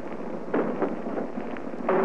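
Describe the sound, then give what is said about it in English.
An artillery shell bursting during a beach landing: two sharp, loud cracks stand out over a steady rushing roar, with a few smaller pops between them. “And there we've hit the beach, just simultaneously with that shell burst that you heard, we hit the beach.”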